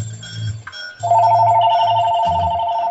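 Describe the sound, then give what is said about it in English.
An incoming call ringing on a phone: a steady, high electronic tone that starts about a second in and holds unbroken to the end over a low rumble. “Oh yeah, I'm getting a call now.”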